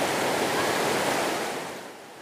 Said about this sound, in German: An dieser Stelle wird aus einer ruhigen Eist eine strömende und mitreißende, weil das Gefälle über die großen Steine wegbricht.